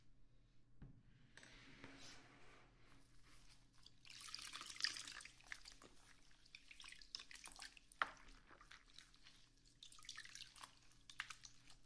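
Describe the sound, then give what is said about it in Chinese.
Faint running water rinsing with clean water, intermittent trickling and splashing swells that rise and fade, with a few sharper drips and taps scattered through. “我们清水冲洗一下哦。”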